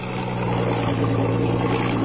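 A snowplow truck's engine drones in heavy snow in California's San Bernardino Mountains: a steady, low, even rumble with a constant hum and no talking.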